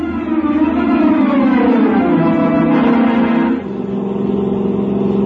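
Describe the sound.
A British sports car engine revs hard in a loud, steady drone with no voices. Its tone wavers slightly, then drops to a lower, slightly quieter pitch past the halfway point.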